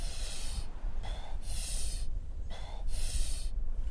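Rapid breathing in and out through the mouth during an energizing breathwork exercise. Forceful hissing breaths alternate with softer ones in a quick, even rhythm, and no one speaks.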